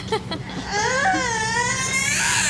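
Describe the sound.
A young child bursts into crying, a loud sustained wail with a wavering, quivering pitch that follows a few brief sounds at the start.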